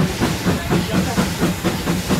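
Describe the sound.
A heritage steam locomotive on a Hampshire line works hard hauling more than 200 tonnes up a steep 1-in-60 gradient. It gives fast, rhythmic chuffing exhaust beats over continuous steam hiss, steady and loud.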